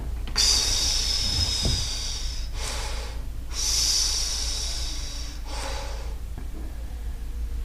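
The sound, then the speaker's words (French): Exhaling during a breathing exercise for running, paced to the steps: a few long, airy breaths rush out loudly in a steady rhythm, separated by brief quieter pauses, with no talking. “Et puis on peut expirer.”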